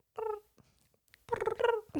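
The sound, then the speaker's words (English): Cat making cute little meows: a short faint meow, a pause, then a louder, longer drawn-out meow with a rough, purring edge. “have videos of this cat just like making the cutest little meow noises”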